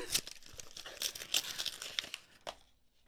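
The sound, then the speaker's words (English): Crinkling and tearing as a small taped cardboard box is opened, with a few quick papery rips and crunches in irregular bursts, fairly faint, then trailing off into near silence. “She's like going opening the box and she's like, wait, what is it?”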